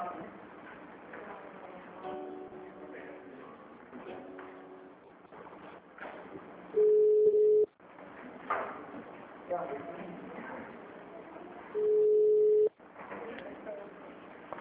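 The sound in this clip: A telephone tone sounds after a dropped call: two steady mid-pitched beeps, each lasting about a second, with people talking before, between and after them.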